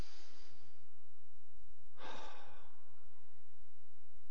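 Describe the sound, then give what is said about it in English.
People breathing in deeply and then exhaling together: a soft, airy breath at the start and then a louder, rushing exhale near the middle. No one talks. “Breathe in deep and hold it. And let it out. That's nice. Let's do that again. Breathe it in.”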